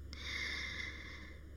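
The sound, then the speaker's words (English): One long, deep inhalation drawn in slowly through the nose or mouth, heard alone as a faint, airy hiss that swells gently and lasts about a second and a half. “Take a deep breath in”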